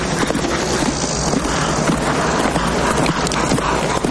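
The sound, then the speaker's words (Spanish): Hooves of a horse galloping across a plain with mountains behind, from a 1994 Western film, make a dense, steady drumming rumble that stays loud throughout. “Poco después, un cliente cabalga por una llanura con unas montañas al fondo.”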